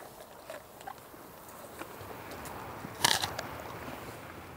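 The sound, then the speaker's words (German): German Angus cattle crunch stored orchard apples, giving soft, faint bites and one sharper, louder crunch over a low background hiss. “Die Lageräpfel von ihrem Obsthof schmecken den Deutsch-Angus-Rindern offenbar richtig gut.”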